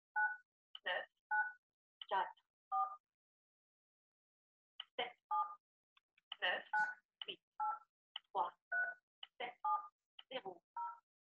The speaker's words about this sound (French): Il faut composer le code de 9 à 11 chiffres.